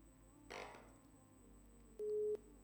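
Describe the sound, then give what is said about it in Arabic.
Telephone busy tone after a call is cut off: a faint, short burst of noise comes first, then a single steady, mid-pitched beep sounds near the end. “فصلت المكالمة. تمام.”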